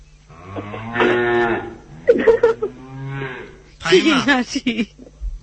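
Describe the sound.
Cattle moo, newly bought cows giving a few long, low, drawn-out calls one after another, loud and clear with short pauses between them.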